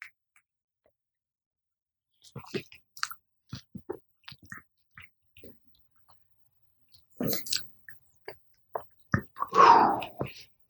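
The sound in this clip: Sipping and tasting bourbon: quiet scattered mouth clicks and lip smacks, then a few louder slurping sips and wet tasting sounds toward the end, with no speech.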